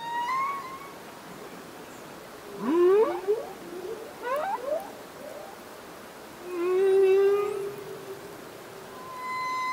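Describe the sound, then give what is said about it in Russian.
A male humpback whale's song unfolds as a string of sweeping, warbling moans and upswept whoops. Pitch slides up and down between fairly quiet stretches, with no voices. “Давай послушаем песню самца горбатого кита. Они считаются самыми искусными певцами среди китов.”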